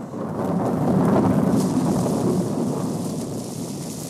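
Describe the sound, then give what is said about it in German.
Thunder from a lightning strike rolls as a sustained, loud low rumble with a broad hiss over it. It swells early and then eases gradually without breaking. “Der Blitz muss eingeschlagen haben.”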